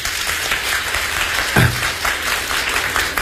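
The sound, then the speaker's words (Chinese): Audience applause during a comic stage performance about Peking opera, just before a painted-face role aria: sustained clapping from many hands, steady and fairly loud throughout, with no speech. “来，大伙儿掌声。”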